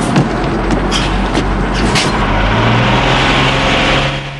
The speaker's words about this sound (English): The bus drives away.